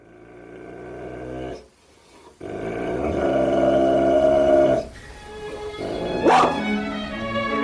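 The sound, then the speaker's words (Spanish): Dogs barking and growling, with rough, sustained growls and barks coming in a few long bursts, one brief pause near the start, and a sharp yelp-like spike toward the end. “Los perros de Patlo.”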